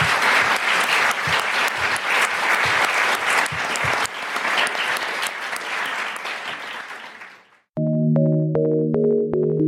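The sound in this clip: An audience applauds the panelists at the close of a public discussion event with dense, sustained clapping that fades to silence before music begins.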